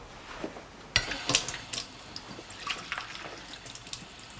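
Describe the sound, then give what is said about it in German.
Tap water runs into a glass at a kitchen sink, making a soft hissing pour broken by a few brief splashy bursts. It stays fairly faint throughout. “Eva nimmt ein Glas aus dem Regal, tritt damit ans Spülbecken gegenüber und lässt sich Wasser ein.”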